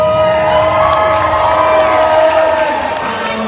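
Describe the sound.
Children's crowd cheering and shouting at a disco, a loud, continuous, high-pitched roar of many young voices.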